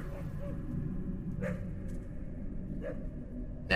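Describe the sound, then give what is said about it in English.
A dog barks on a downhill road while following someone: a few short, faint barks spaced apart over a steady low background. “now it's barking.”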